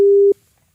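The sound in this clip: A telephone line tone as a radio host calls a listener back: one steady mid-pitched tone lasting about a third of a second, loud and alone, then quiet.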